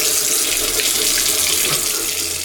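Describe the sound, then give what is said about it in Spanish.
Water runs from a tap in a steady, hissing rush that stays even and fairly loud throughout, with no voices. “Si no cerras la llave mientras lavas los platos o te cepillas los dientes, estás desperdiciando el agua que se tomarían 44 personas en un solo día.”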